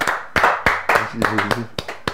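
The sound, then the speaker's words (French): Loud hand claps from a church audience applauding in praise of the Lord, a series of sharp, punchy claps at a brisk, slightly uneven pace, with voices briefly heard among them. “Acclamons pour Seigneur.”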